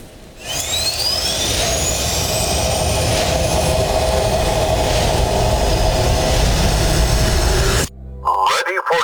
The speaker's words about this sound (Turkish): Milli jet uçağımız performansıyla göz doldururken gurur dolu anlar